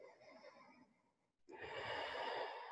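A deep breath drawn in during a vinyasa yoga flow: a soft airy breath, a brief silent pause, then a louder, fuller rush of breath that carries on to the end.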